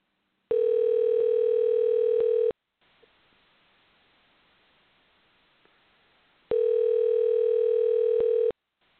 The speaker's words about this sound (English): So I'm gonna go ahead and dial again. We should dial again.